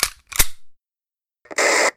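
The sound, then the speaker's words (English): A gun being cocked behind someone: two sharp mechanical clicks close together, then a pause and a longer, harsh metallic rasp. “stops when he hears a gun cocking behind him”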